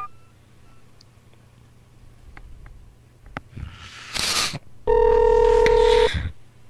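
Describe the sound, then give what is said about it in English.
A telephone number is dialed for a call to a motel: a few faint clicks, then a burst of hiss and a loud, steady electronic tone lasting just over a second. “I hope I didn't dial the same number again.”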